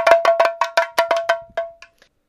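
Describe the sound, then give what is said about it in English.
An African pellet hand drum is spun so its two wooden beads on strings strike the head, giving a quick run of about a dozen sharp, ringing clicks that slow and fade out. “one of the instruments I wound up using is an African hand drum. And that looks kind of like an oversized lollipop with two strings attached to it.”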